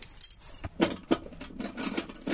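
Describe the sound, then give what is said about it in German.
A key is tried in a locked box, with faint metallic jangling and a few scattered clicks and scrapes spread irregularly across the moment. “Ach, endlich ein Schlüssel, der passt.”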